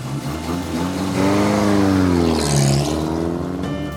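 A car engine drones steadily while driving to a hospital, a mid-pitched hum that swells slightly partway through and stays continuous, with no voices.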